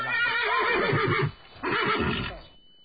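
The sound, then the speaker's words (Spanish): A horse neighing in two long, loud, shaky whinnies separated by a short pause, the second fading away into quiet, with a thin steady high tone running underneath. “Me parece que tu caballo tiene hambre.”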